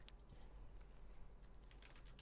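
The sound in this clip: Typing on a computer keyboard: quick, irregular key clicks pattering along at a quiet level, with no talking.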